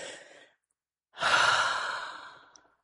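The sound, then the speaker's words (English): A forceful exhale during a breathing exercise: a brief breath out, a short pause, then one long, strong rush of air that gradually fades away. “We're going to blow out all that stale overnight air trapped inside of the bodies. And all you got to do is what? Exhale, like.”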